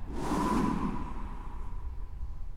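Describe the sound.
A long exhale out through the mouth during a guided breathing exercise, a breathy rushing whoosh that starts strong and gradually tapers off, with no talking.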